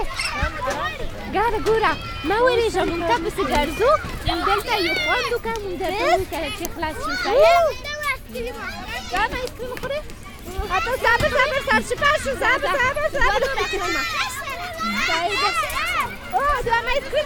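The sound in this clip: Children play, laugh and run around a playground slide at night. Many high, excited young voices overlap in continuous chatter, shrieks and laughter throughout, dipping only briefly midway.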